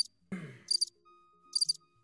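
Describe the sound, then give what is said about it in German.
Crickets chirping, used as filler music: two short, high, trilling bursts of chirps, faint and separated by a brief pause. “Ich mache kurz, ich überbrücke mit Grillenmusik.”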